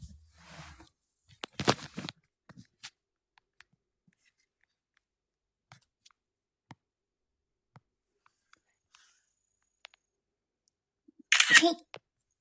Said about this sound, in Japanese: ペットシーツを引いて、写真を撮りたいと思います。